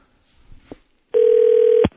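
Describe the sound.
A telephone rings once as a call connects, a single steady electronic tone lasting under a second, preceded by a few faint clicks.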